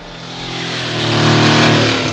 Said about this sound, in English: Hens scatter from the entrance to a farmyard as a motorbike hurtles down a narrow country lane.